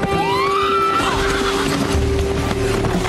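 A horse whinnies as its rider sets off, a high cry that rises in pitch for about a second at the start. A dense, noisy bed follows, with a low rumble coming in toward the end.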